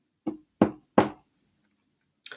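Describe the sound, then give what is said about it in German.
Three soft, evenly spaced knocks on a bedroom door at the head of a bed, heard alone. Each knock is dull and brief, followed by quiet. “Klopfe es vorsichtig an die Tür am Kopfenden des Bettes.”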